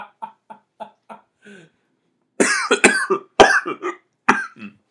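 Coughing after inhaling spit: a run of short, quiet hacks, then a pause and a louder, harsh fit of several coughs.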